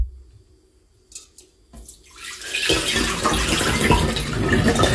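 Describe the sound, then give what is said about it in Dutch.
Water being drained off boiled eggs: a few faint clinks and knocks, then a gushing splash that builds quickly into loud, continuous pouring and splattering to the end. “Het afgieten van de gekookte eitjes.”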